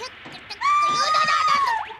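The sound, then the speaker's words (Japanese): A loud, high-pitched scream lasting about a second, a sustained wavering cry that swings upward near its end, preceded by faint low background sounds. “今の悲鳴は。”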